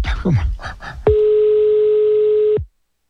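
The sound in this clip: A steady, level telephone tone sounds loudly for about one and a half seconds while a call is being placed, then cuts off sharply; brief talking comes just before the tone starts.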